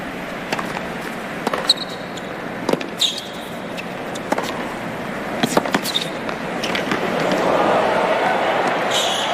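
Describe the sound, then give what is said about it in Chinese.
Tennis ball strikes ring out on a second serve and the rally that follows in a professional women's match. Several sharp, irregularly spaced thwacks rise above a noisy background that swells in the final seconds. “第二发球”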